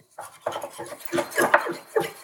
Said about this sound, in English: Start whisking. Whisk, whisk, whisk, whisk. This is turning into a weird brown liquid.